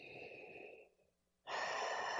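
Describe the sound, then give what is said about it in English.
A deep breath during a guided relaxation exercise: airy breath noise fades into a short pause, then a loud, rushing breath swells and holds to the end. “So take a deep breath”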